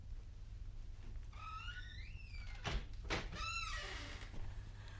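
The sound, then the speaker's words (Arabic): A door opens in a drama scene with faint creaking squeals, then two dull knocks and a second creaking squeal. “فتح الباب ودخلت بنزهير بعد ان صرفت الوزير وأقبلت على عنبر”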